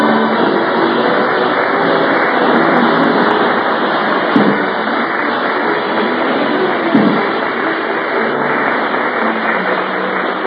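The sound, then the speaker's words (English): A car being driven gives off a steady, loud engine rumble that runs unbroken throughout, with two soft thumps partway through. “At the moment, Rochester is driving Jack to the studio.”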